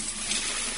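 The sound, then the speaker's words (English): Coins poured down a drain make a bright, continuous metallic jingle and rattle with a hissing shimmer, steady and fairly quiet for under a second, with no talk. “That's the sound of money being poured down the drain.”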